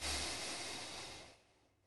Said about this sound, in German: Ausatmen. Direkt wieder einatmen.